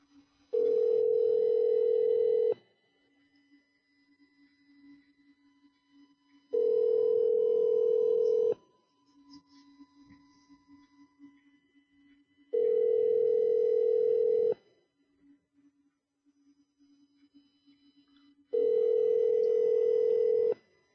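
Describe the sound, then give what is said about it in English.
Telephone call ringing out: four long, steady ringback tones of about two seconds each, evenly spaced with roughly four-second gaps of faint line noise between them. “call him back. And I don't know if he'll answer, but I'll try twice.”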